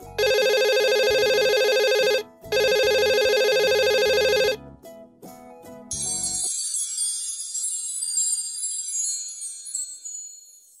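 A telephone rings in two long, loud electronic bursts with a short pause between them, and a bright, shimmering tinkle follows after the ringing stops.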